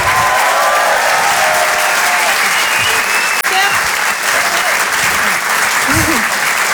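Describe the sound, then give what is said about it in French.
A crowd at a Paris comedy club applauds a comedian after a set. The clapping is loud and sustained, and a few voices call out through it, with a shout near the end. “Faites du bruit, s'il vous plaît, pour Nash.”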